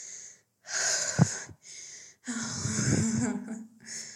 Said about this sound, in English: I need to catch my breath. I don't know why.